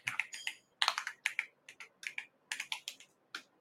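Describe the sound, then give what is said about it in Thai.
Typing on a computer keyboard as BTC is entered into a search. Many crisp key clicks come alone in short, uneven bursts separated by brief pauses. “Bitcoin ที่ผมเซฟไว้เอาหายไม่เป็นไรพิมพ์เอาก็ได้นะครับ BTC”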